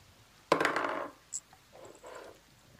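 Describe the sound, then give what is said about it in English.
Dice clatter across a table during a tabletop role-playing game: a sharp rattling burst about half a second long, then a brief click and a softer, scattered rattle as they settle, with no talk. “One more bad roll, I'm taking that dice from you.”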